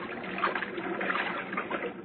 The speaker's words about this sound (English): He decided to swim for it.